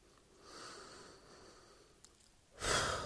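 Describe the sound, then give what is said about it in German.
Slow, deep breathing, very faint and airy, ending in a louder, breathy exhale. “Jetzt bin ich wieder zurück in mir und atme tief und viel freier ein.”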